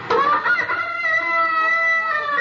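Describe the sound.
A rooster crowing among clucking chickens: a long, steady, high crow that holds its pitch with little change, alone and without talk.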